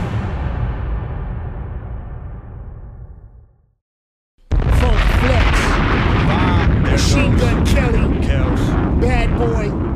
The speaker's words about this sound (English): Kid got the bomb. I'm trying to tell you. The bomb drop.